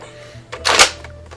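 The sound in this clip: A toy gun fires a pencil with a single sharp mechanical snap and brief rattle, standing out over a low steady hum.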